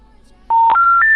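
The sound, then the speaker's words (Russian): Telephone keypad dialing tones: three short, steady beeps in quick succession, each one a little higher in pitch than the last. They begin after a brief quiet stretch and are loud and clean against a faint hiss. “я набрал на этот номер”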